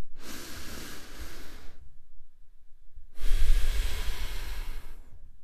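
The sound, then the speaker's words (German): Deep breath in and out during a seated guided relaxation: two long, airy hisses of inhaling and exhaling, separated by a short pause and heard alone. “dann atme einmal tief ein und aus”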